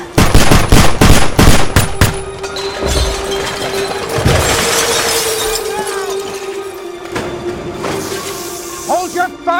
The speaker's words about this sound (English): Vicente runs to the door with his hands up. The officers gun him down.